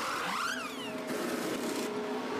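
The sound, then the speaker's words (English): A Mercedes Formula 1 car enters the pits, its engine whine rising sharply in pitch and then dropping away over steady background noise. “Here comes one of the Mercedes as well. I'm probably going to say it's Russell. No, it's Hamilton. Hamilton in the pits.”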